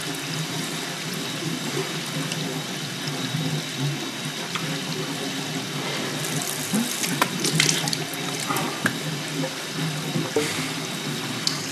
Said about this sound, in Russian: у раковины умывает лицо.